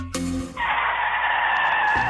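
Car tires skid on a road, the worn tires having almost no grip. A short burst of low rumbling noise gives way to a loud, steady, high-pitched screech that holds to the end.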